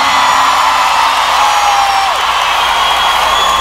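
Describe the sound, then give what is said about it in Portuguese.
A live audience shouts and cheers in a dense, steady roar of whoops and yells that holds level from start to finish. “Quem gostou, solta o gritão.”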